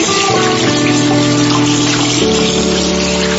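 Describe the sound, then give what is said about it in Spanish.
Tap water runs for handwashing in a steady, unbroken rush with a faint underlying hum, level and continuous throughout. “lavaste las manos?”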